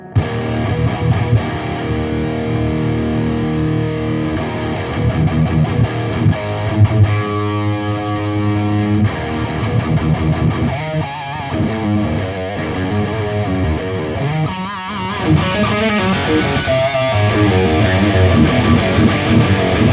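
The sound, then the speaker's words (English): Electric guitar driven through a TS9 overdrive pedal, loud and heavily distorted with lots of gain, playing continuous chugging riffs and sustained chords for the whole stretch, with no talk. “Okay, engaging the TS9.”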